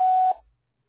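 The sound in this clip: A short voicemail beep sounds as a single steady mid-high tone lasting about a third of a second, then cuts off and fades to silence, with no talk.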